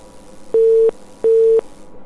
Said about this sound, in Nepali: तर फोन फाट्टै काटियो